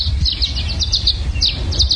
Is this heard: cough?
no